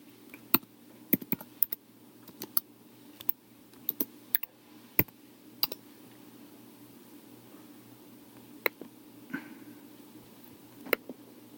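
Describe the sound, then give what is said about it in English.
Computer mouse clicks, a scattered, irregular series of sharp, faint clicks over a quiet low hum. “I really have to click through every... Well, at least I have to just click once.”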